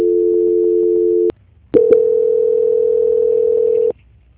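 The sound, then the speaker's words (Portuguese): Telephone call-transfer tones: a steady two-note hum lasting over a second, a short silence, then a longer, steady single-pitched tone of about two seconds, with no voices. “Só um momento que eu vou transferir a ligação.”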